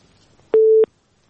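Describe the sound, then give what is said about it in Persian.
Telephone busy tone after a listener's call is cut off: a single short, steady mid-pitched beep with a sharp start and stop, alone over near silence. “من هم میفهمم که شنونده تماس قطع میشه”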